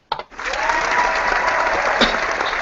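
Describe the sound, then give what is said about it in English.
A studio audience applauds in a thick, continuous roar of clapping that rises quickly after a sharp onset and stays loud and even throughout. “The studio audience is going crazy.”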